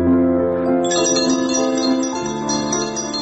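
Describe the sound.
A school bell rings for the last day of the school year, a loud, continuous bright ringing with a dense shimmer of overtones that holds steady throughout, with no talk over it.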